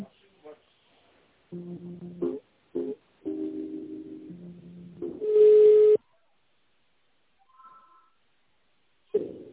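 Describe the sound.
Electronic telephone tones sound as an office call is transferred to another extension: a few short beeps and one longer steady tone, separated by silences.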